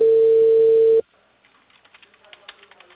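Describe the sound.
A loud, steady telephone tone hums for about a second after a call is cut off, then stops abruptly, leaving faint scattered clicking taps.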